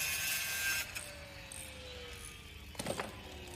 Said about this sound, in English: Sparks fly from a grinder.